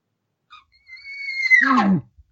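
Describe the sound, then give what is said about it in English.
A human voice imitates a bull elk's roundup bugle: a brief faint note, then a long, high, whistling tone that swells in loudness before breaking into a raspy, falling grunt, heard alone. “He's not using a location bugle anymore. He's using a roundup bugle. He's not giving you a challenge. He's usually not giving any of that. He's just giving you that, you know, he'll sound like this.”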